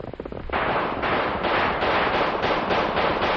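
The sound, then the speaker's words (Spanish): Gunshots ring out in a rapid series, many loud cracks merging into a dense, rattling burst that runs steadily to the end after a brief, quieter crackling start. “Ahorita le tiro unos plomazos.”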